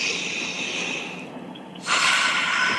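A long breath drawn in during a guided breathing exercise, a steady airy hiss that dips briefly, then grows louder and fuller toward the end, with no talking.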